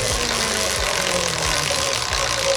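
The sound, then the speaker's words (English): A prize wheel is given a big spin to pick a quiz category, producing a steady, low mechanical rattle with rhythmic ticking that runs through the whole stretch without voices. “Do you want a big spin or a little spin on the wheel to choose your category? Big spin, please. Here we go. A big spin.”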